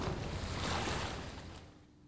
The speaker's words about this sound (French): La mer, agitée, semble nous retenir.